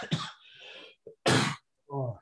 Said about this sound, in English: sorry, man, this is the worst cough of after a while.